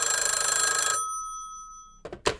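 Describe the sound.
A telephone ringing for an outgoing call: one bright, shrill ring lasting about a second, then a lingering electronic tone, and a voice cutting in right at the end.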